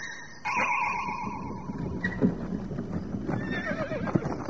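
Horses hitched to a junk wagon whinny and clop their hooves in a children's audio play. A loud, wavering neigh opens the scene, hoofbeats patter steadily beneath, and a second, higher whinny follows near the end.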